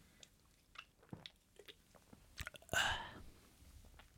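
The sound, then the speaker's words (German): A sip of beer: faint lip and mouth clicks, then a louder, brief slurping gulp, followed by a few soft mouth noises. “Mal ganz kurz nochmal eben einen Schluck Bier nehmen hier.”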